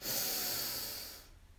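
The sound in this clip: A deep breath during a guided breathing exercise: one long, airy, hissing inhale that is loudest at the start and slowly fades over about a second before cutting off into quiet.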